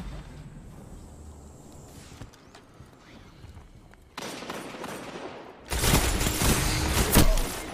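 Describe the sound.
Gunfire from a pulse rifle in the video game Destiny 2, during a Crucible match: loud, dense bursts of shots break out in the second half after a quieter stretch, with a sharp peak near the end.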